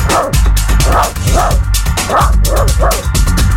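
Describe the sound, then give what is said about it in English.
A big dog barks over and over in a quick series of loud, rough barks, with no growl clearly standing out and no talk over it. “it says our dog is growling. There you go. I've got to do the big dog as well.”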